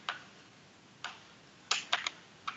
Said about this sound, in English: That's the one. All right, so I need a T10 Torx driver to loosen up the speaker.